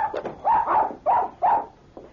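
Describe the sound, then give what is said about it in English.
Small dog barking while following its owner into a store: a quick run of several sharp, mid-pitched yaps separated by short gaps, with the last one fainter. “Dave rushed into the store excitedly with his dog barking at his heels”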